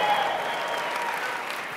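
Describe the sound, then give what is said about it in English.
An audience applauds at a live event after an introduction, a faint, even wash of many hands clapping that holds steady for the whole stretch and tapers slightly toward the end. “Give him a tremendous round of applause.”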